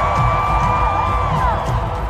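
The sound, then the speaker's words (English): A Bay Area crowd at a punk rock concert cheers in a sustained, loud roar, with a few higher tones running through it. “Armstrong's rant got big cheers from the Bay Area crowd.”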